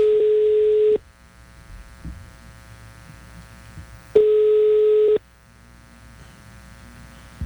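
A telephone call tone sounds while dialing: two steady, buzzy one-second beeps at a fixed pitch, separated by about three seconds of low hum.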